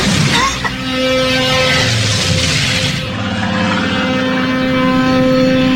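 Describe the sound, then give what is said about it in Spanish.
A plane flying toward a secret headquarters in Alaska makes a steady, droning engine hum. The roar stays dense and constant with strong low tones, and there is a brief rushing swell near the start. “perdido en Alaska, el avión que transporta al Capitán Global y a Lisa Hayes se aproxima al cuartel secreto del Comando del Mundo Unido”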